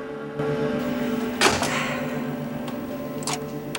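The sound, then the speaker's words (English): A videotape is inserted into a VCR, giving a single sharp mechanical clunk midway, followed later by a couple of faint clicks over a steady low hum. “She inserts the tape into a VCR.”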